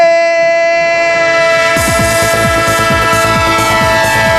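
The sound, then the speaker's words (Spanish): A train sound effect in a football radio jingle: a loud, sustained whistle chord holds throughout, and a rhythmic chugging joins partway through and continues to the end. “¡Tren de Radio Estadio! El tren de Onda Cero, el tren de la Liga, el tren del fútbol.”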